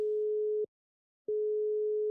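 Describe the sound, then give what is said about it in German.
Telephone ringing tone while a call is placed: a steady, pure mid-pitched tone that cuts off, falls silent briefly, then resumes at the same pitch, heard alone. “Ich rufe Sie jetzt mal an.”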